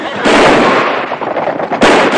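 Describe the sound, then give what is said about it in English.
Pistol gunshots fired by a gang at townsfolk, heard as a dense, continuous loud crackle of rapid bangs lasting about two seconds, with a brief dip before a final burst. “The gang shoots off their pistols at the townsfolk and ride off in a hail of indiscriminate bullets.”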